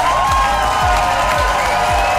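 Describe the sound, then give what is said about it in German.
Applause and cheering from the audience at the German Entertainment Award ceremony in Mülheim, a thick, sustained wash of clapping with a few regular deep thumps pulsing beneath it. “Ja, großen Applaus gab es unter anderem für die Formate Heute Show Extra und für das ARD-Reality-Format Werwölfe.”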